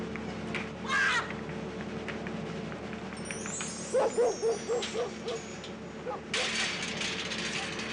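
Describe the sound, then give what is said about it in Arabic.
A tied-up dog barks in a quick run of several sharp, fairly faint barks that taper off, over a steady background hiss. “الكلب الكلب اقول لك يلا نمشي. باكر لا تخافين، مربوط مربوط”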